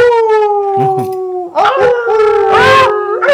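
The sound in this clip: Wolves howling in long, sustained, tonal calls: several overlapping howls hold steady notes that sink slowly in pitch. The howls are loud and continuous, with no talk.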